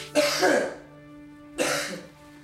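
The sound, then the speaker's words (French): Two rough, breathy coughs from a person ordered to cough during a prison intake body search. The first burst is longer, the second shorter after a pause, over a faint steady hum. “Toussez.”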